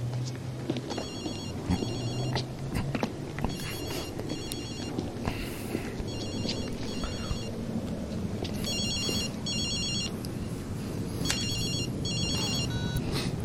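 Ringing tone of an outgoing telephone call, repeating as regular double rings in a steady cadence, with a low murmur underneath and no one speaking.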